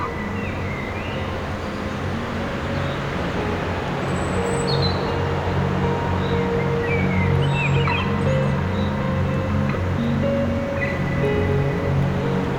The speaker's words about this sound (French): Le bruit sourd du torrent.